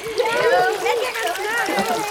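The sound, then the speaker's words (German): Children kicking their legs to splash water in a pool at its edge, the sloshing and splashing running beneath lively overlapping children's voices that dominate the moment. “Und jetzt patscht mal alle ordentlich mit den Beinen im Wasser rum.”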